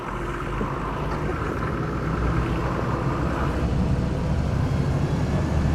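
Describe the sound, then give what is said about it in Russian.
Bus driving off, its engine giving a steady, low, broad rumble that grows slightly louder partway through and carries on alone with no talk. “Бежит за автобусом и машет ей.”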